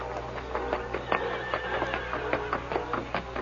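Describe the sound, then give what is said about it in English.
Hoofbeats of a trotting horse in a Western radio drama sound effect keep up a steady, even clip-clop throughout. A higher, drawn-out whinny rises over the hooves partway through. “He whistled softly. A moment later, Scout trotted to the Lone Ranger's side. Scout, old fella.”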